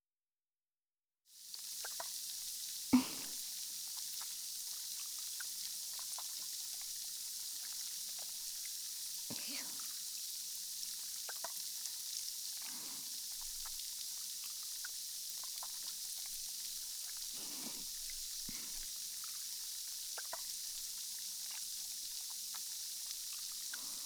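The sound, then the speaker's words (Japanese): Carbonated foam lathered in the palm for an ear-foam routine: a steady, bright fizzing hiss with occasional soft squelches and crackles, faint and continuous, with no talk. “は炭酸の泡を耳に入れてくよ。まず手のひらで泡立てて”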